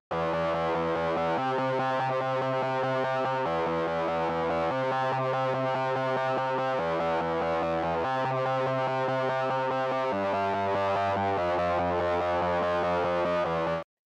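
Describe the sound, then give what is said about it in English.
Electric guitar, the first of two layered verse parts, heavily effected and moderately distorted, holding sustained chords that change every one to two seconds in a repeating cycle, steady and alone without vocals. “And that's actually two guitar parts, one in the left speaker, one in the right. So the first one sounds like this.”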